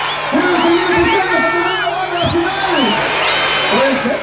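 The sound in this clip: Audience shouting and cheering at the end of a show, with voices whooping and calling out over a steady crowd roar.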